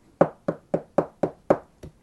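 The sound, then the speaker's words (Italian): Knocking on a door in a film scene, after the door was left unopened. Seven evenly spaced, firm knocks follow one another at a steady rhythm, with the final knock slightly later and softer, and no voices. “Poi non gli aprono la porta alla regina. E allora bussa di nuovo.”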